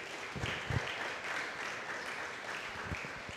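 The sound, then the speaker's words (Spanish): Applause from an audience during a church service: faint, steady crackling of many hands clapping, continuing evenly throughout. “Denle un fuerte aplauso a Cristo, aleluya.”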